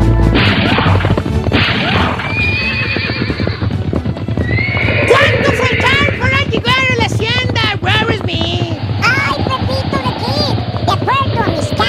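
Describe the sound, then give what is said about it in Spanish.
Horses gallop with fast, steady clip-clopping hooves under loud neighs and whinnies, mixed with crashing thuds in a dense, continuous racket. “cabalgando allá por el viejo este a todo galope.”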